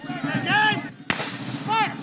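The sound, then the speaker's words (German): A cannon fires at a historical battle reenactment in a national park clearing in Indiana, giving one sharp, booming crack over a steady background of other sounds. “Kanonenschläge donnern über die Lichtung im Nationalpark von Vincennes, Indiana.”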